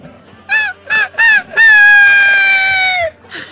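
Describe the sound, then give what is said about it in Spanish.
A person imitates a rooster crowing: three short, loud, arching vocal calls followed by one long, sustained, slightly falling note, then a faint trailing sound. “Pará, un gallo me sale re bien. Va a ser el último. A ver.”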